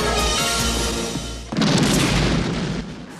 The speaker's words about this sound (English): They leap safely into a ditch as the building explodes in a big ball of flames.